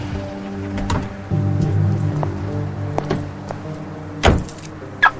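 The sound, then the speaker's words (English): A car pulls in and parks while a woman gets out. A low, steady engine hum carries a few mechanical clicks and light thumps, then a sharper door-like knock near the end. “He parks, and she pulls in beside him and gets out of the car.”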